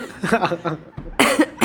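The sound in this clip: A sudden cough from saliva going down the wrong pipe cuts through a stretch of conversation. One loud, breathy burst comes after the talk, close beside voices.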